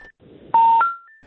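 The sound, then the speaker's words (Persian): Electronic telephone tones as a call with a guest drops: a brief faint beep, a gap, then a loud steady tone that steps up to higher tones, the last one fading out. “خب تماس ما با دکتر پویا بازم قطع شد.”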